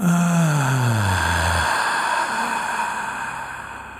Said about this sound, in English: Take another deep breath in and exhale.